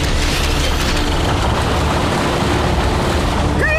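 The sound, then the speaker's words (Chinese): Loud, steady, rushing roar of surging water as an ocean current wave device starts up, constant throughout, with a brief rising tone at the very end. “我的计划绝不能毁在你们手里。启动洋流波动装置。”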